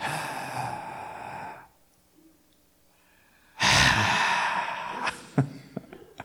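A church audience breathes out loudly together in two long, breathy rushes of air separated by a quiet pause, the second followed by a few faint scattered sounds.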